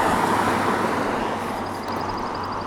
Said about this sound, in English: Wait a minute, I hear a vehicle. I hear a vehicle coming.